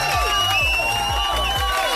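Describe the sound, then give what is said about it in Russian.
A crowd cheers and applauds for a contestant in a radio game, loud and continuous, with repeated falling tonal swoops running over the noise. “Эти аплодисменты для тебя.”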